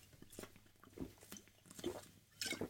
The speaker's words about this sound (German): Entschuldigung, ich brauche einen Schluck.